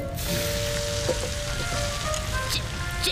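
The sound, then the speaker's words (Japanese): Bacon sizzles and fries in a pan, a steady, dense hiss with scattered crackles and pops running throughout. “ベーコンなんか焦げちまえ。”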